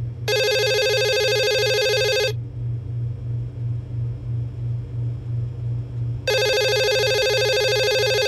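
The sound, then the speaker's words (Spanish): A telephone rings with an incoming call in two long, bright electronic ringing bursts separated by a silent gap of about four seconds, over a low, softly pulsing hum. “Encarna Milán recibe una llamada de su hermano”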